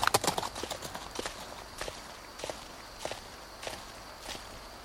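Hooves clip-clop as a horse is ridden in an Old West setting: a quick cluster of hoofbeats at first, then a steady, fairly faint rhythm of paired strikes.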